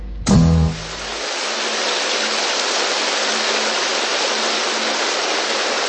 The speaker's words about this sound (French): La pluie s'est mise à tomber ici au studio Boucan.